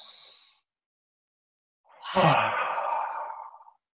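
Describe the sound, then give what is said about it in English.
A slow, deep breath taken during a guided meditation exercise: a short airy inhale, then a pause of over a second, then a long, audible sighing exhale that fades out over nearly two seconds. “Just pause for a moment and take one deep breath with me. Let's all do it together.”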